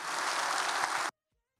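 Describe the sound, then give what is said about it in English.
A church audience applauds to welcome a guest pastor from Ohio, a dense burst of clapping that lasts about a second and then cuts off abruptly into silence. “Would you please put your hands together and welcome Pastor Tim Moore from Ohio.”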